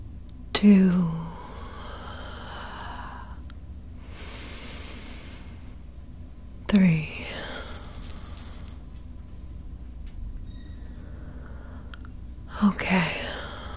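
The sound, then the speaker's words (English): Three slow calming breaths, each a soft airy rush that fades out, evenly spaced several seconds apart with near-quiet between them. “I'm gonna begin by taking 3 calming breaths.”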